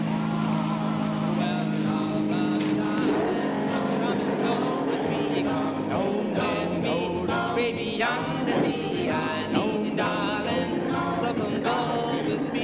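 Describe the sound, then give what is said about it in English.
Engine of a car with a stiff, heavy clutch, a steady droning hum that runs continuously under people talking. “Takes a lot of strength to depress this clutch. This car can get away from you.”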